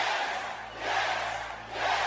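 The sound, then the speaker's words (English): A crowd cheering and roaring in loud swells. The noise dips and surges again a few times over the short stretch. “And everybody cheers.”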